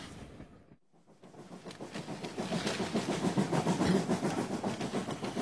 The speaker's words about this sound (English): This is the fast train. Only 1 hour and 10 minutes.